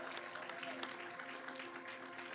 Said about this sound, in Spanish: Démosles un aplauso a ellos.